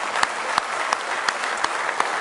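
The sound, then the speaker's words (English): A church audience claps hands in praise during a morning worship service, producing continuous dense applause punctuated by a steady rhythmic beat of six sharp, louder claps in unison. “Oh, let's give him a big hand clap of praise this morning.”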